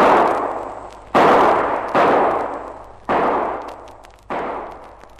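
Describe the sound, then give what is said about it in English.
Revolver gunshots fired at a far-off target: five loud, sharp cracks, each trailing off in a long, slowly decaying tail, spaced unevenly about a second apart. “Now, let me place that fire. I think I can see where they are. Bit far for a revolver, but here goes.”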